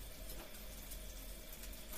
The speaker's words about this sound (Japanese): じゃあシャワーに行くぞ。ちょうどいい温度になったな。